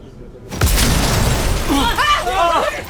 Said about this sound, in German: Verdammt! Was war das? Die Fenster sind explodiert!